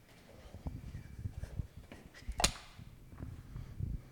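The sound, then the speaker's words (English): A light switch is flipped on to power studio lights, giving one sharp click against a low background rumble and faint scattered handling noises. “Should I flip the magic lights on? Yeah. Look at it. Watch what it does.”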